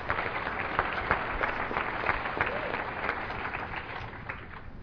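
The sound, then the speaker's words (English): An audience applauds with dense, even clapping that holds steady for the whole stretch and is fairly faint overall. “for the community to have y'all here, so give yourself a hand.”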